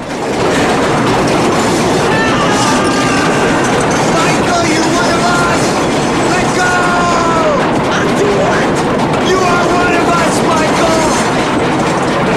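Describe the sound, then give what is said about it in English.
A train rattles and shakes a bridge, giving a loud, steady clattering rumble that runs the whole way through, with faint high squealing tones drifting in and out above it. “Michael tries to compose himself to keep a grip on the bar as the train rattles and shakes the whole bridge.”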